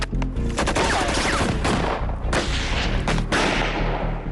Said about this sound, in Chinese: 他发现了闪动的身影，2队立刻开火还击。